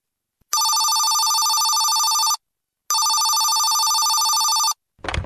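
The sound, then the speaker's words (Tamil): Telephone bell ringing in two long, loud, even bursts separated by a short silence, heard alone with no talk, followed by a brief soft noise at the very end. “யாரோ phone பண்றாங்கம்மா.”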